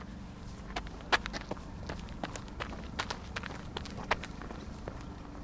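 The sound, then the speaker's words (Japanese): Footsteps of a person running through Tokyo on an autumn run: many quick, light, evenly paced footfalls, faint and steady over a constant background hum. “セランでご馳走いただいたんで私はこれからまた体消費するためにここから竹橋まで走って帰ります”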